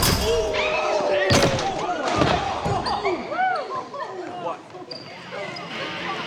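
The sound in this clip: A basketball slams home in a dunk after a player's aerial somersault. A couple of heavy thumps land amid busy squeaks and scuffling.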